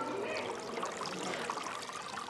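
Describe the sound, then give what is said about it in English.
Spring water flows steadily out of the ground among lush grass and willow thickets, a soft, continuous rushing and trickling hiss that stays faint and even throughout. “a steady spring, crystal clear and shimmering in morning light. It flows right out of the ground”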